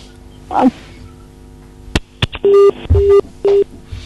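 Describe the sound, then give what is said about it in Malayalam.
Telephone line tone after a phone call cuts off during a call-in program: a couple of sharp clicks, then three steady, mid-pitched beeps of similar length, clear and fairly loud with no talk. “Call കട്ടായെന്ന് തോന്നുന്നു.”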